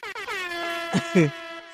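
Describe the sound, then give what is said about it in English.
An air horn sound effect blares: a brief stuttered start, then one loud, flat-pitched sustained blast lasting nearly two seconds. “Let me pull it up, honey. Let me get the air horn.”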